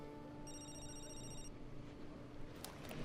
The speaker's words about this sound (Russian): Ей звонит мобильный.